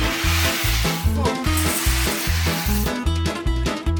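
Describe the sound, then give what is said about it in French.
Sizzling from several pans of boxed mac and cheese cooking at once: a steady, broad hiss runs throughout under a rhythmic music beat. “Ça a été beaucoup plus compliqué que ce que je pensais de cuisiner tous ces mac and cheese simultanément.”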